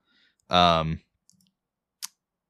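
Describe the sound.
Computer mouse clicking while notes are opened on a website: a short voiced sound, then a faint tick and one crisp, sharp click in otherwise near-silence.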